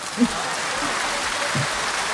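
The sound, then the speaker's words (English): A round of applause: dense, steady clapping from a crowd that fills about two seconds at an even level, with no clear voices over it. “You deserve a round of applause.”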